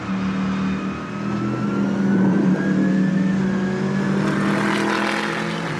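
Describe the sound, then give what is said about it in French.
A 550-horsepower electric race car accelerates at full throttle out of a track corner, its steady motor whine climbing gradually in pitch over a loud, constant rush of road and wind noise. “L'électricité de l'engin, c'est juste incroyable. Donc à la sortie des virages, je peux accélérer gaz à fond.”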